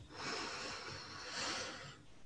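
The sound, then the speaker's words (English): A slow, deep breath drawn in during a meditation: a soft, airy rush of inhaled air lasting about two seconds, faint and alone, swelling slightly twice before easing off. “Taking a deep breath in”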